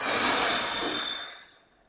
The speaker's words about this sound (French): Prends ton temps pour l'inspiration sans forcer. Puis tu souffles fort.